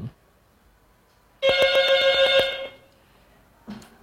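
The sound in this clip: A telephone rings as a call-in line opens: a single loud ring burst of about a second and a half with a rapid, bell-like trill, then quiet with a brief low sound at the end.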